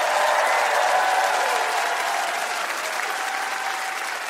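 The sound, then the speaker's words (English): A studio audience breaks into applause, a dense, even wash of clapping that holds strong and eases off only slightly toward the end. “Give it up one more time for Chris Hadfield.”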